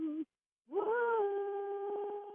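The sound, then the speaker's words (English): A cell phone rings with an electronic tone: a short harmonic beep, a brief silence, then a longer steady tone. “It's the cell phone.”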